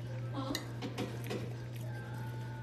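A spoon clinking on a plate while eating pancakes: a few light, bright clinks over a steady low hum.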